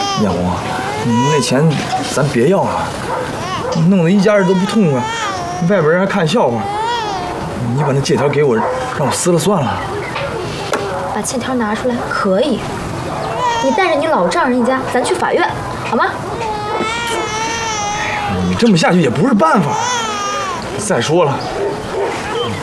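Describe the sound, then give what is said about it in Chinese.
A baby cries again and again in wavering, high wails, while adults talk over the crying almost the whole time. “孩子怎么老哭呢？是不是让咱吓着了，还是闹病了？”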